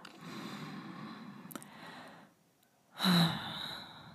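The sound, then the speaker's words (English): A long, steady breath out lasting about two seconds during a guided breath-holding exercise, then a short pause and a louder, sharper intake of breath. “Exhale. Regular breath.”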